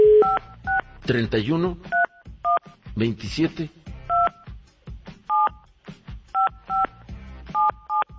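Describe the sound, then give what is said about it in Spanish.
Touch-tone dialing of a telephone number produces many short, bright dual-tone beeps in irregular bursts, with a voice talking between and around the keypresses. “A ver, vamos a marcarle a Luis Razo”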